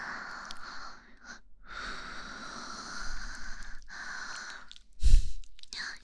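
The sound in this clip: Slow, deep breathing: long, airy hisses of drawn-in and released breath, each lasting a couple of seconds with brief pauses between, ending in a sharper, louder exhale.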